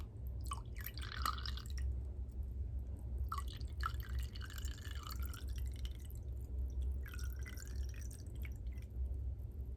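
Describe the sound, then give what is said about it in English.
Riesling wine poured into a glass in three separate bursts of soft gurgling and trickling liquid over a steady low hum. “I'm gonna pour a glass for you.”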